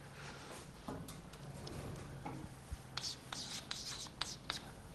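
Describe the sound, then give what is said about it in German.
Faint scratchy strokes of someone writing an abbreviation on a board, a series of short, light marks with brief pauses between them. “Also ich schreibe jetzt mal immer so die Abkürzung hin.”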